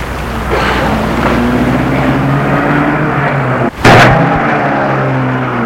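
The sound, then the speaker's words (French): A car engine outside an apartment building at night as the car pulls away, heard as a steady low rumble throughout, broken by one sharp thump partway through. “Elle a entendu la voiture partir.”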